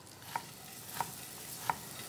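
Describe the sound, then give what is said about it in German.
Butter browns with chopped nuts in a pan, giving a faint, even sizzle broken by three light, evenly spaced taps of a utensil against the pan. “So, die Butter, da karamellisieren wir jetzt schön die Molke. Ja. Und dann haben wir da gleich eine tolle braune Butter.”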